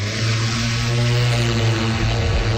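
Aircraft engine drone as a plane takes off for a magnetic survey flight, a loud, steady, buzzing hum that holds constant throughout.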